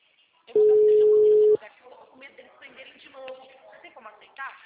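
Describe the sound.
A telephone ringback tone plays while a call waits to be answered: a single loud, flat, steady beep lasting about a second, followed by quieter talk.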